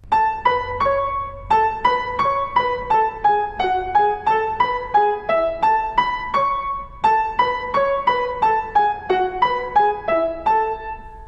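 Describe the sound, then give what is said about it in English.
Piano octaves with the bottom notes played staccato by the thumb under legato top notes from the fourth and fifth fingers, many evenly paced chords in a steady melodic line with two brief pauses. “using the fifth and fourth fingers on the top notes, and play the bottom notes on the thumb staccato from the finger while playing legato on the top, playing the octaves together so you get this sound.”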